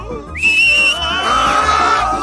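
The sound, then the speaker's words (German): A loud, shrill whistle calling a flying broom: a sharp upward-swooping blast that holds a high pitch, then a second, lower sustained whistle tone, piercing and alone. “Auf Roxanas Pfiff hin schüttelte der Besen seine Reiter ab und flog zu ihr.”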